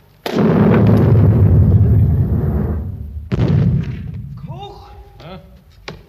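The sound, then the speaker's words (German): Gunfire during a war scene in a stage play: two heavy booms, each with a long rumbling decay, the second about three seconds after the first. A voice is faintly heard afterward. “Schießen's schon wieder.”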